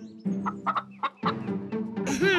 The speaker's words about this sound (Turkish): Şimdi tavukları besleyelim.